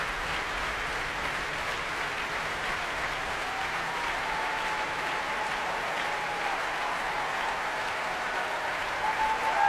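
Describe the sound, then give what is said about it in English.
Applause from a capacity concert audience as the conductor returns to the podium: a long, sustained roar of many hands clapping at a steady level, swelling slightly louder at the very end. “And that, ladies and gentlemen, is the sound of a capacity audience who have very much enjoyed themselves.”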